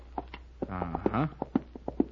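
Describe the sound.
A horse named Splendor is handled near a saddle, with irregular hoof clops and a short, tonal vocal sound from the animal in the middle.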